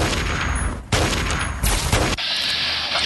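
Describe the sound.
Gunfire in a video game shootout: a dense, loud wash of noisy shots broken into a few sharp bursts, with no speech.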